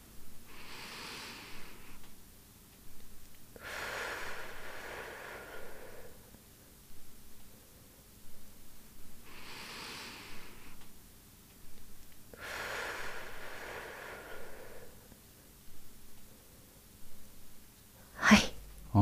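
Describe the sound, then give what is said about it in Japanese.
Slow abdominal breathing practiced for labor, drawn in through the nose and let out through the mouth. Four long, soft, airy breaths come at an even, unhurried pace, and a short sharp noise follows near the end. “一応鼻から吸って口から出すっていう、まあ、腹式呼吸を意識してやってみます。”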